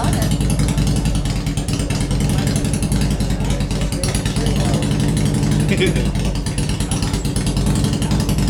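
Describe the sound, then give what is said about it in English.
A motorcycle engine rumbles steadily and loudly throughout, with people talking over it. “I feel the bike leaving.”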